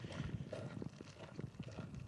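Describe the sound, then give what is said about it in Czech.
Footsteps crunch on a gravel path through a thinning forest, a quiet, steady run of many gritty steps. “Štěrk mi pod nohama křupe”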